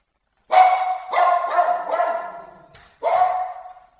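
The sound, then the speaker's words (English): A pet dog barks at home as a solicitor comes to the door. It gives a quick series of sharp, mid-pitched barks, pauses briefly, then lets out one more bark, with no talk over it. “And you get my dog. That's great. I just don't want my dog to bark.”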